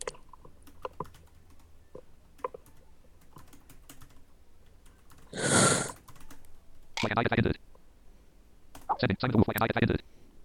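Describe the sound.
Keys on a computer keyboard click lightly and irregularly as someone types, broken by a few louder rushing bursts of sound.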